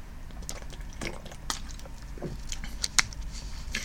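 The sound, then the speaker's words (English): A quick sip of water, heard as a few soft, wet slurps and small swallowing squishes, faint and alone. “So, with that said, and a quick drink of water,”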